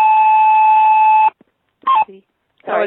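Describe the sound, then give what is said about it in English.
A mobile phone beeps with a long, steady electronic tone that lasts over a second, then falls silent before a couple of short, fainter bursts. “that's my phone.”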